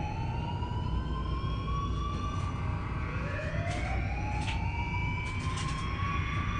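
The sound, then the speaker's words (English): A siren wails without a break, its tone gliding slowly upward in long sweeps, loud and steady above a constant low rumble. “Somebody turn that damn siren off.”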